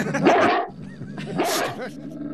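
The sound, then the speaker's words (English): A dog barks in short, sharp bursts: two louder barks with softer yips between them, uneven in rhythm and fairly loud. “Hang on, your dog's back.”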